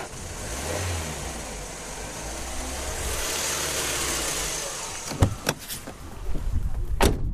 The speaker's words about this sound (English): What we're going to do is we're going to drive as close as we can to that little green drop. We'll pause the recording and start again when we get there. Should we drive? Let's do it.